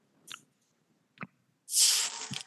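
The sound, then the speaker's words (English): Sipping a bubbly drink: two soft, brief mouth clicks, then a longer hissing, fizzy slurp that stays fairly loud before tailing off. “I'm going for another sip real quick.”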